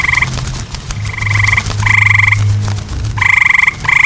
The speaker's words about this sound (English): A clamor resounds throughout the vaults, the flip-flip-flipping of flying bat-winged toads,